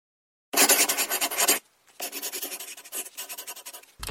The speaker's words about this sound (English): Great. I'll get my writing equipment out and be ready in a moment.